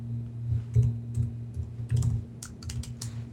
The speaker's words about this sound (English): And I'll just key in my Azure subscription username. And password.